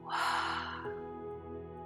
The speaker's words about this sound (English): Open the mouth and let it go.